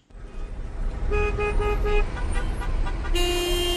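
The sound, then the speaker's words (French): Car horns sound over the steady rumble of a traffic jam in Kabul: a quick run of short toots, then a long, sustained horn blast near the end. “Samedi, il y a beaucoup d'embouteillages parce que c'est la journée de travail. Donc on a des embouteillages partout.”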